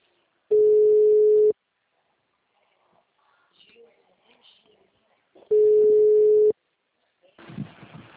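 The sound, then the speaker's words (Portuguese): Telephone line tone while placing a call: two steady, mid-pitched one-second tones separated by a long silent gap, with faint rustling noise in between and a brief burst of noise at the end. “vou ficar ligando.”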